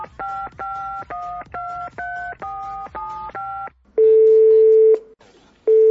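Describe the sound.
A telephone number is dialed as a quick run of loud keypad tones, then a long steady tone sounds and starts again after a short pause.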